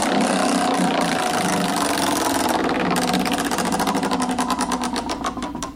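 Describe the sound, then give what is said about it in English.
A game-style wheel is spun, giving a fast, even run of ticking clicks over a steady, buzzing mechanical whir that continues for the whole stretch. “This is the sort of wheel we'd be facing if we actually adopted that policy. So what do you say? Let's give it a spin.”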